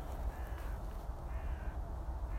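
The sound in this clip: Crows cawing outdoors, a few harsh calls rising faintly above a steady low rumble of background noise.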